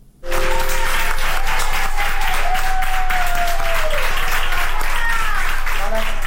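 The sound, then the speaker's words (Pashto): Sustained, loud applause from doctors and nurses in Madrid, clapping for a woman over 100 years old who recovered from COVID-19. The clapping is dense and unbroken, with voices mixed in. “د اسپانیا په پلازمینه مادرید کې ډاکټران او نرسان هغې مېرمنې ته چکچکې کوي چې تر سلو کلونو تیره ده او له کورونا رغېدلې ده.”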